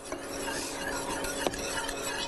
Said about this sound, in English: Whisk up the egg yolks with a little bit of that cream mixture. And you want to go back into the pot with it. And then you have no danger of scrambling your egg. Whisk that up very well together.